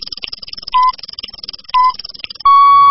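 An FM radio station's hourly time-check signal marks 3 p.m.: two short, mid-pitched beeps a second apart, then a longer steady tone that runs to the end, over faint rhythmic ticking.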